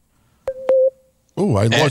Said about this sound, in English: there's some sort of beeping and thing going on.